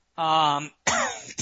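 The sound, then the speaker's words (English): A man coughing while ill: a throaty, voiced burst followed after a short gap by a rougher cough, both fairly loud and heard on their own without talk. “You'll have to pardon the cough. I'm still fighting something.”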